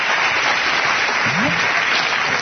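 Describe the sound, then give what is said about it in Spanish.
Applause from an audience after a talk on web standards: a dense, even patter of many hands clapping that carries on without a break from start to finish. “Gracias, un aplauso para las dos.”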